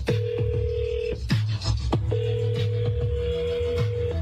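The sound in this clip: A telephone rings on an outgoing call placed by an AI-voiced radio host to a contest winner. A steady mid-pitched tone drops out, then resumes, mixed with sharp percussive hits.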